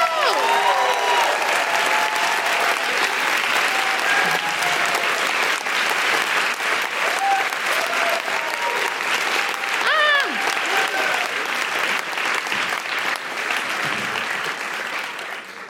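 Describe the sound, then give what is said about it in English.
Audience applause at a live show with performance poetry: sustained, dense clapping with whistles and cheers that stays loud throughout and eases slightly at the end. “Put your hands together and make extraordinary noises for the wonderful Imelda May!”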